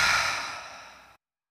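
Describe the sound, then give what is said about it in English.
A deep breath let out through the nose: one breathy rush, loud at the start and steadily fading for just over a second before silence. “I invite you to just take a deep breath in through your nose and just let that go with ease.”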